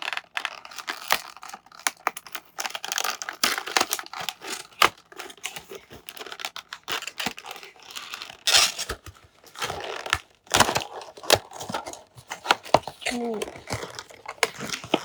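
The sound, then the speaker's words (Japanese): A toy is unboxed, its packaging torn open and handled. Irregular crackles, rustles and sharp clicks come in bursts throughout, with a voice speaking at times. “早速、おもちゃの方を開封していきたいと思います。あ、すごい開いた。”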